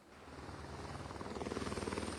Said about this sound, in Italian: Non so se sentite il rumore, sono in azione in continuazione da questa mattina alle 7 due elicotteri